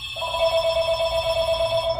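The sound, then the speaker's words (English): A telephone rings continuously at a shoe repair shop that is closing down, a steady electronic ring holding unbroken from just after the start to the end, with no talk over it. “loyal customers can't stop ringing the doorbell and the phone.”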